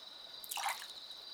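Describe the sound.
A single soft drip and small splash of hot bath water, faint and brief against a thin steady hiss.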